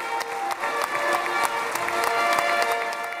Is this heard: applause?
yes